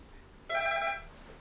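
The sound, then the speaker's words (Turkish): An incoming phone call rings once: a single half-second burst of bright electronic tone, starting abruptly and stopping cleanly, with nothing else around it. “Şimdi Adem abi beni arayacak.”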